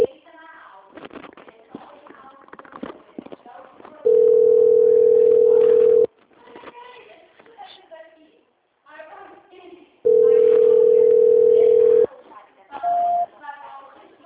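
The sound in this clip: Telephone ringing tone while a call is transferred: two long, loud, steady tones, each lasting about two seconds and separated by a pause, then a shorter tone near the end, with people talking between them.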